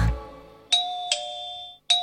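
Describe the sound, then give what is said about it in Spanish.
A doorbell rings with three bright, clear chime strikes, each ringing on and fading before the next, loud and with no voices. “¿Qué es? El timbre alguien tocó.”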